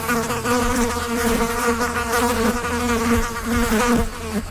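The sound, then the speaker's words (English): Black flies swarming in spring make a continuous, droning buzz with layered overtones that stays at a steady loudness throughout, with no voices. “black flies are all the buzz. We'll find out why there are more swarming around you this spring.”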